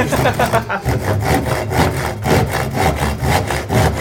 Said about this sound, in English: That was a saw noise, yeah.